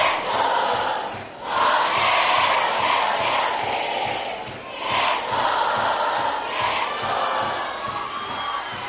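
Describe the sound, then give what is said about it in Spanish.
A crowd cheers and shouts at a live concert during a platinum record presentation. The roar is loud and sustained and swells twice, and a steady rhythmic pulse runs underneath it. “Yo quiero escuchar bien fuerte el aplauso.”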